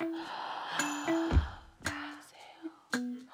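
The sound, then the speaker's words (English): A deep inhaled breath, heard as a few soft, breathy swells of air with short pauses between them, faint and without talk. “Inhale.”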